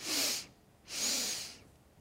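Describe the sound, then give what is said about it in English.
Two strong, forceful breaths in a restorative yoga breathing exercise, each a loud, breathy rush of air lasting about half a second, separated by a short quiet pause. “Strong exhale, pause at the bottom. Inhale, inhale, chest, pause at the top.”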